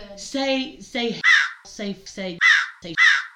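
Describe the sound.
Three harsh crow caws cut sharply into people talking, each loud and brief, used to mask words in the conversation.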